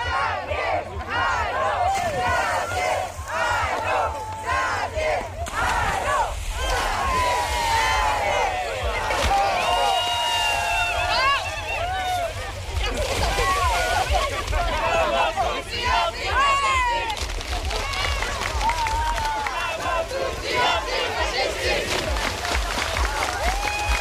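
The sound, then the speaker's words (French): Around fifty swimmers in a canal shout and chant together, a continuous roar of crowd voices with rising calls and cheers throughout. “Il y a maintenant une cinquantaine de baigneurs et de baigneuses dans l'eau.”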